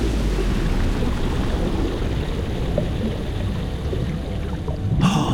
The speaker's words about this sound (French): Et maintenant, on plonge.